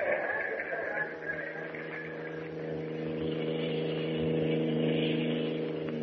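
A car drives along a road with a steady, low engine hum and a faint mid-pitched whir that swells slightly toward the end.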